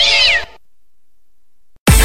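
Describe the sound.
A cat lets out a single loud, bright meow whose pitch bends slightly downward, followed by near silence and then an abrupt burst of another sound at the very end.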